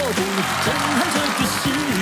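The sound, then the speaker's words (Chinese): Audience applause at a live stage show: dense, steady clapping runs throughout, with a voice talking over it. “来掌声掌声，好不好？”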